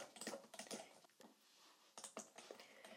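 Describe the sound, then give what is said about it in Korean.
Typing on a computer keyboard for ASMR, with many crisp, clicky keystrokes in quick, uneven bursts and a short pause in the middle, heard alone without talk. “이런 키보드 자판 소리를 좋아하는 분들이 많아요. 이런 소리만 반복해서 들려주거든요.”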